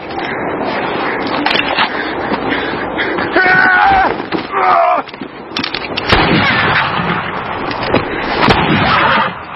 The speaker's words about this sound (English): Gentlemen, shooting cornbread out here on the prairie is getting us no closer to the Ned Pepper gang. One more. This'll prove it.